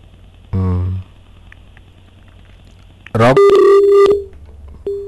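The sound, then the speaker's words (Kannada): Telephone line tones as a caller's call suddenly cuts off: a brief harmonic tone, then a pause, then a louder burst of electronic tones that settles into a steady beep for about a second. “ಪ್ರಶ್ನೆಗಿಂತ ಮುಂಚೆ ಕರೆ ಕಡಿತ ಆಗಿದೆ, ತೊಂದರೆ ಇಲ್ಲ.”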